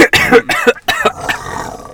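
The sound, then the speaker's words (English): A voice imitates an animal snarl by rattling phlegm in the throat, making a few rough, gravelly bursts. The last is a longer growl that trails off. “can you do a snarl, though?”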